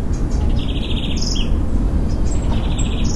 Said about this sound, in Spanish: En el fondo de mi casa se escuchan los pajaritos.